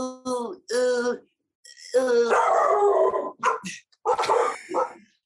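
Dogs barking and howling: several loud, sharp, harmonic barks, then a long drawn-out howling yelp, followed by a few more barks in short bursts with gaps between them.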